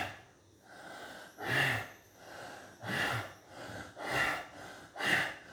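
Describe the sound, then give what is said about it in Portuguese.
Sharp inhalations through the nose repeat in a rhythmic breathing exercise, several quick, snorting intakes of air separated by softer breaths, faint and with no talking. “Você inspira e faz assim.”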